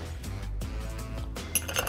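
Ice clinks into a glass for a mojito: a few bright, sharp clinks near the end, over a steady low rumble.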